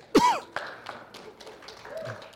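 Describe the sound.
A person coughs once in a church, a sharp, loud burst at the start, followed by a few softer, quieter throat-clearing noises.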